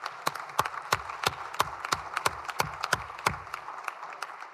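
Applause welcoming guests in the Senate: a steady run of many crisp, separate claps at a fairly even rhythm, moderately loud, with no voices.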